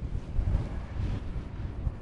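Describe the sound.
Wind gusts buffet across an exposed hillside, a loud low rumbling roar that surges and eases unevenly throughout, with no voices.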